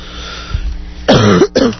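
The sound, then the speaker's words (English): Someone coughs right into a microphone. After a soft low thump come two loud, harsh cough bursts in quick succession, close and clipped, with a brief gap between them. “thank you for doing that right into the microphone. Huh? That cough right into the microphone.”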